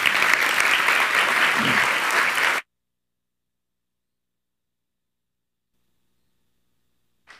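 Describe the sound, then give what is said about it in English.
An audience applauds two ladies who lead a church ministry at a Sunday morning service. The dense, steady clapping lasts a couple of seconds, then cuts off into silence. “Give them a hand, please.”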